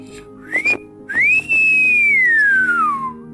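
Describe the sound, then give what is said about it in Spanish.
Whistling of a whistling fish: a short high whistle, then a long loud one that climbs quickly and glides slowly downward before stopping, with nothing else heard. “Silbó.”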